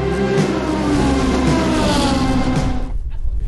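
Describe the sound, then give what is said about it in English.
A Porsche engine running steadily, a dense rumbling drone with layered low harmonics that holds at an even level, then cuts off abruptly near the end, leaving only faint noise. “how's the Porsche faring in this part of the journey? Running beautifully.”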